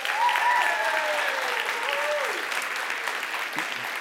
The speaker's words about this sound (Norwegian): Vi gjør først en prøveapplaus for å høre først. Prøveapplausen.